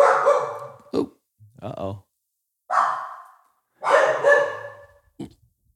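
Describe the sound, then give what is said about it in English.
Dogs bark in a series of loud, harmonic bursts separated by short silences, some sharp and clipped and others longer and more drawn out. “we're gonna pause for a sec. Okay, so we're back in after the interruption by our dogs.”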